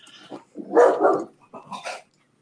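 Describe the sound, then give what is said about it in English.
A dog barking in the distance: a few mid-pitched barks in short bursts, some doubled, heard alone with silence between and after them. “Dog barks in the distance.”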